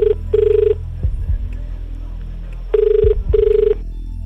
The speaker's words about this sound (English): We're calling the winner right now. Ready? Yeah. Calling.